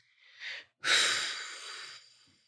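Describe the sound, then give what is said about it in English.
Deep breathing into the low belly: a short soft breath, a brief pause, then a longer, steady, airy breath that slowly fades, with no talking. “we'll just take a couple deep breaths into the low belly”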